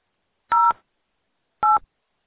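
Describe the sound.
Two telephone keypad tones from pressing 2 in an automated phone menu, each a short, steady electronic dual-pitch beep, sounding alone about a second apart.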